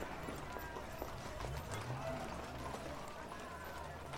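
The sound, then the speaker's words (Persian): Faint hooves of a horse-drawn carriage clip-clop under a low, steady rumble outside a café at night. Voices talk over the sound. “یه درشکه نگه میداره.”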